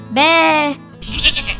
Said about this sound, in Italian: Sentendo i belati della capra,